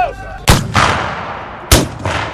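Artillery fires at a battle reenactment: two loud, sharp cannon blasts, each followed moments later by a second booming burst that rolls away into a fading rumble.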